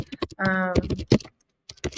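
Typing on a computer keyboard: a quick, irregular run of sharp key clicks, broken by a brief pause before a few more taps.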